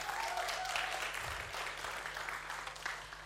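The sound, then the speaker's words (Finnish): An audience at a talk on a religious movement claps steadily to welcome a speaker, a dense, even wash of applause that carries on without a break. “joten nyt tässä vaiheessa voidaan toivottaa tervetulleeksi Rauno Kokkola. Laitetaan kädet yhteen.”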